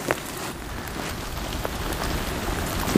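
Steady rain on a rainy day over a bayberry grove: a continuous, even hiss of falling water with a few sharper drop taps standing out, and no voices.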